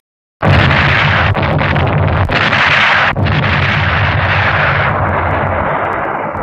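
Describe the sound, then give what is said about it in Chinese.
Enemy artillery fire shelling at random: a sudden loud boom that swells into a long, heavy roar, broken by a few sharp cracks and slowly easing off toward the end. “不像是发现目标， 是敌人乱打炮。”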